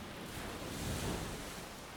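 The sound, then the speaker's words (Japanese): Gentle waves lapping on a night-time sea shore make a soft, continuous hiss of water that swells slightly midway and then eases, with no voices. “静かなさざ波。引いては寄せる波の音”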